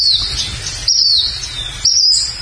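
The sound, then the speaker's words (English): Bird chirping from an unidentified bird, heard as high, thin whistled phrases that repeat roughly every second, three in all, over a low steady rumble. “There's that mystery bird again.”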